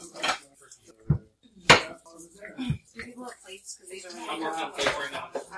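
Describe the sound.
Dishes being washed and rinsed in a farmhouse kitchen: several sharp clinks and clatters of plates and cutlery mixed with people talking.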